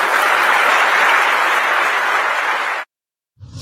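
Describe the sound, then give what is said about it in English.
A Republican audience applauding after a political speech, loud, dense clapping that holds steady, then cuts off abruptly into silence. “And to be met with a round of applause.”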